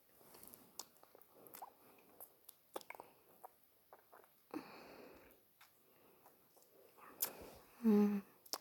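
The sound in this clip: Faint, wet mouth sucking and slurping sounds, a scattered series of soft smacks and squishes with a louder burst near the end.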